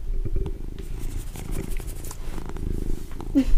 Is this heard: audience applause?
no

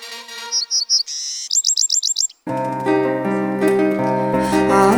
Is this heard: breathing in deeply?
no

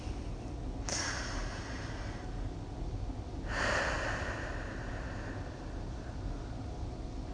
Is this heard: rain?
no

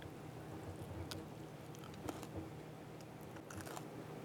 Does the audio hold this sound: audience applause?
no

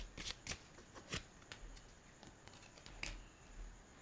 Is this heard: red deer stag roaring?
no

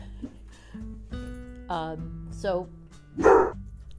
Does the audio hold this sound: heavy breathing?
no

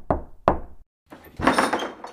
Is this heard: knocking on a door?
yes

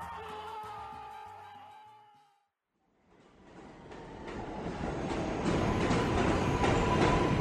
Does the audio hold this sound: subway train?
yes

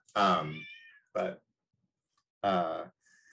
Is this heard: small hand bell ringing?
no

